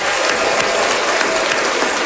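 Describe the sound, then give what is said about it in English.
Steady applause fills the whole stretch, a dense wash of many hands clapping at an even, loud level with no break and no voices. “So let's rejoice in that for a minute. Let's we can celebrate a little applause.”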